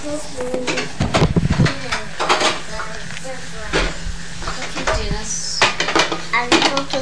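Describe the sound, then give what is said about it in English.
Pans and metal utensils clatter and clink in irregular bursts while French fries are being cooked, with some speech mixed in. “I'm cooking French fries.”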